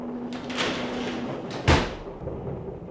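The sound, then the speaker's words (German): A door is pulled shut with a single dull thump, moderately loud against a quiet, hissy background. “Machen Sie die Tür zu.”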